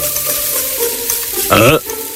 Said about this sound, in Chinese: 我们正在做饭呢，要一起吃吗？